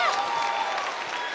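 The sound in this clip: Audience clapping for a woman invited up on stage at a live event, a loud, fairly even patter of many hands with voices rising over it.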